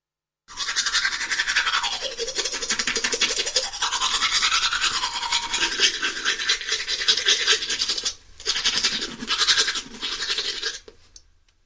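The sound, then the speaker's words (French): A person brushes their teeth with a toothbrush, a continuous rapid bristly scrubbing rasp that stops once briefly and then resumes, with no talk. “Il se brosse les dents.”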